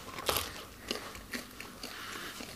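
Biting into a crusty sourdough bread: a crisp first crunch followed by four softer crunching chews at a fairly even pace, all quiet.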